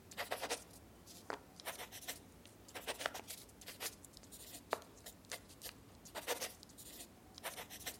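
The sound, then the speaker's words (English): Pen scratching on paper as a note is written by hand in an office. It comes as a run of quick, irregular strokes at a fairly quiet level, with no one talking. “No more words. I'll put it in writing.”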